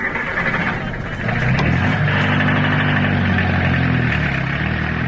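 A taxi car's engine running in a steady mid-pitched drone, holding an even loudness throughout with no voices over it.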